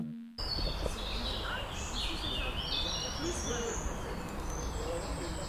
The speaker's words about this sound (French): je sais pas si vous entendez, mais c'est le bruit des oiseaux avec un peu les voitures derrière et des gens qui discutent